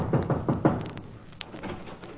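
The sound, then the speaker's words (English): Knocking on an office door: a few quick, evenly spaced knocks at the start, followed by quieter room noise. “I went up to an office one day and knocked at the door.”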